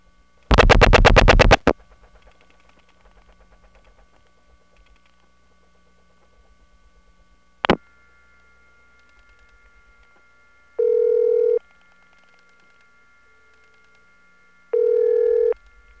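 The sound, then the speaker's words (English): Faint steady hum and thin whine of a resonant telephone trunk line during dialing. A loud harsh tone burst comes near the start, then a sharp click, then two short, evenly pitched beeps. “Before I finish dialing, take a listen to the background noise on this trunk. It's going to increase when we cut through.”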